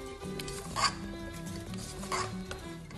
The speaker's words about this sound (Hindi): जब योगर्ट हमने डाल दिया तो इसको योगर्ट को थोड़ा सा हमने मिक्स कर लेना है अच्छी तरीके से।